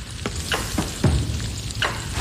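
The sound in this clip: Lard sizzling as it heats in a pan for frying: a steady crackling hiss broken by a few scraping, clattering stirs.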